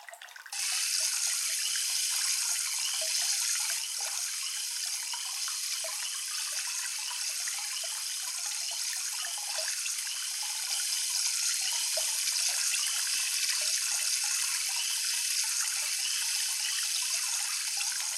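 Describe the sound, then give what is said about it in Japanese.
Warm water is poured over the head before hair washing. A steady, even rush of running water hisses on for the whole clip with no voices. “それでは頭を洗わせていただきますね。まずはお湯を頭へと。”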